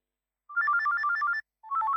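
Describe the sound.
A mobile phone ringtone plays a bright, rapid trilling melody of alternating electronic tones in two bursts separated by a short gap, clear and moderately loud with no talking.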